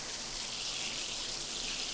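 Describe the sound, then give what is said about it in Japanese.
Hot water soaking into hair during a hair wash, heard as a soft, steady watery hiss that holds unbroken and fairly quiet throughout. “たっぷりと髪の毛にお湯を染み込ませて。”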